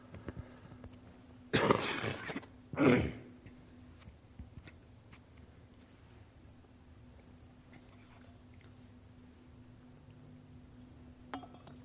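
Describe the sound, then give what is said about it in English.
A person coughs twice: a harsh, rasping burst, then a shorter second cough a moment later. Only a faint low hum follows. “Trying to keep this cough under control.”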